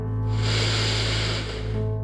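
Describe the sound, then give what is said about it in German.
A deep breath drawn in through the nose during a guided meditation: a steady, airy hiss lasting about two seconds, rising in at the start and easing off at the end, over soft sustained background tones. “Und dann nimm jetzt einmal einen ganz tiefen Atemzug ein durch deine Nase”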